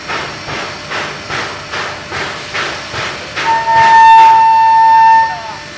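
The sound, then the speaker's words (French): Steam locomotives in Pingdingshan, Henan, China, with steady rhythmic chuffs building in pace, then a loud, sustained steam whistle that drowns the exhaust beats before cutting off. “Et vous avez compris qu'il s'agit de trains à vapeur”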